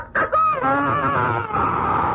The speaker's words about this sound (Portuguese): dia começa quando o galo canta. E o galo, quando canta, anuncia